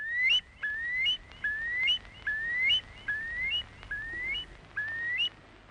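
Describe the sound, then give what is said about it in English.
A curlew calls in a wildlife recording, giving a long series of clear whistled notes. Each note slides upward in pitch, repeating at a steady rhythm over faint background hiss. “I'd like to have the real sound of the wild. And I chose Koch's recording of the curlew.”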